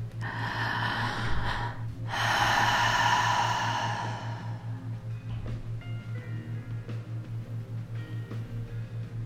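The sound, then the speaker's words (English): A slow, deep breath drawn in and released, a long airy rush in two broad waves over a steady pulsing low hum, with no voice. “Take a deep breath. Breathe in love, empowerment, and connection.”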